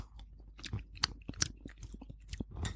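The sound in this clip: Chewing and tasting homemade baba ganoush, with soft, irregular mouth sounds and faint crunchy bites repeating many times, alone and without talk.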